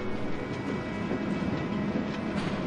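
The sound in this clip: A tram rolls past a tram stop, giving a steady, dense rail rumble with low, rough clatter that holds an even loudness throughout and carries no voices.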